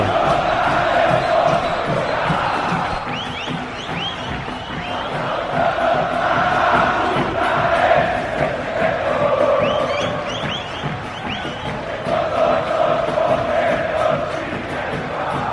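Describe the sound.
Football crowd at Juventude's Jaconi stadium roars and sings in a sustained mass of voices, rising and easing in waves, with a few shrill whistle-like cries cutting through.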